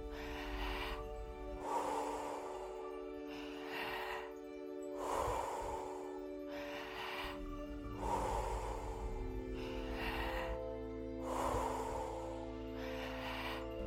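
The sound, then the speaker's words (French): Deep, rhythmic breaths from a guided breathwork session: a steady run of breathy, whooshing inhales and exhales repeating about every three seconds, set over a continuous low tonal drone. “Inspirez dans le ventre et la poitrine. Relâchez.”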